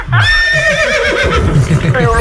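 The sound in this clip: A horse lets out a loud, shrill whinny with wavering high harmonics that gradually slides lower, while a voice talks underneath.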